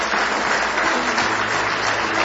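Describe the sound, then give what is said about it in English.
An audience applauds during a church service, giving a hand clap of praise. Many hands clap in a steady, dense wash at an even level from start to finish, and no single voice stands out. “Give the Lord one more hand clap of praise tonight.”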